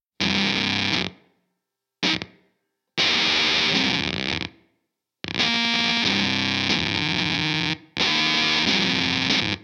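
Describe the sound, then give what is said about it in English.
An electric guitar played through a Moire Visceral distortion pedal: heavily saturated, fuzzy chords in five bursts of varying length. Each burst cuts off abruptly with a gated effect, leaving silence between phrases. “But now, what you're hearing is me playing through the final finished production version of this pedal.”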